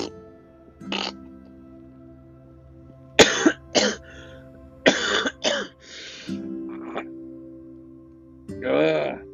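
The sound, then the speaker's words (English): Harsh, throaty coughing from someone with an upset stomach comes in several separate bursts at irregular intervals over a faint steady hum, some coughs close together in pairs. “the more I cough, the more I feel my stomach is going inside out. I can't help my stomach is feeling right now with coughing every single minute.”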